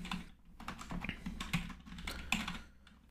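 Typing a dice-roll formula on a computer keyboard: many quick, light keystrokes in a steady, uneven patter over a low background hum.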